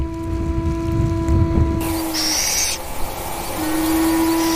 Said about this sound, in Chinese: 纵纹腹小枭幼鸟几乎没有练习就能展翅飞翔，这预示着它们离家的时间即将到来。